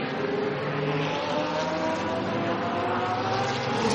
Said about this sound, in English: Excuse the noise in the background. It's noisy car doing pit stops and we're trying to work.